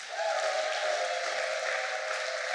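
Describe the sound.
Audience applause at a church service where women are urged to acclaim, a dense, steady wash of clapping that holds loud and even from start to finish.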